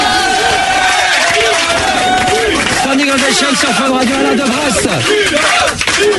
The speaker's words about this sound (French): Bravo! Bravo! Debout, debout, debout. Standing ovation, debout.